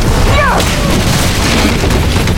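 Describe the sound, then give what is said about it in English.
A burning timber rumbling and crashing down from the floor above in a raging fire: a loud, dense, continuous rumble with no quiet gaps. “A fiery timber rumbled down from the floor above.”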